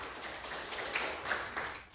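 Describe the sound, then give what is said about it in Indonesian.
Encouraging applause for team C in a school quiz competition, a brief, faint patter of clapping with a few slightly louder bursts. “Ya, beri tepuk semangat untuk Regu C.”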